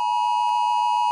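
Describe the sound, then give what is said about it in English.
Australia's national emergency warning system sounds its test alert tone: a loud, steady, high-pitched electronic beep that holds without a break, with only brief faint dips in its texture. No voices are heard. “coming up bang on 2 o'clock, the Oz Alert, which will sound like this.”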